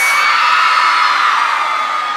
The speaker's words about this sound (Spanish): Quiero escuchar el grito de todas las mujeres calientes.